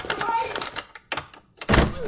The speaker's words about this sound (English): You open the door, then stay back.